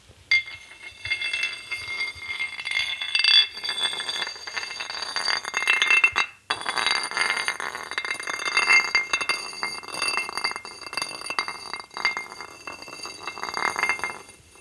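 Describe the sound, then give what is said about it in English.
Basalt stones from Rēkohu clink together in a steady run of many bright, ringing knocks that continue without a break and with no talk. “here we've got some basalt, lots of basalt on Rēkohu, and it's a beautiful sound.”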